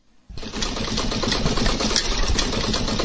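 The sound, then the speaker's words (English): A sewing machine stitching clothes gives a steady, dense mechanical whirr. It starts abruptly after a brief quiet moment and runs on evenly and loudly to the end. “She sews clothes to feed her three children.”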